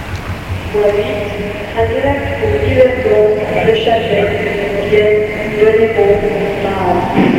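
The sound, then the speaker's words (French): Inside a dirty, crowded railway station, a continuous din of murmuring voices sits over a low rumble. The busy ambience holds fairly steady throughout, with brief louder swells. “Elle entre dans la gare.”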